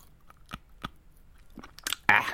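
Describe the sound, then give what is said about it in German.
Someone chews and bites on a pen: several sharp, dry clicks and crunches at an uneven pace, ending in a louder crackling bite. “Überprüfen, ob der Stift einen guten Imbiss abgeben würde.”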